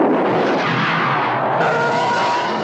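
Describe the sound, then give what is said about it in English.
Loud, dense cinematic sound effects from the theatrical trailer for Star Wars: Attack of the Clones, a continuous roaring rush with a harsh, broad texture that holds steady throughout. “Okay, we just watched the theatrical trailer for Star Wars.”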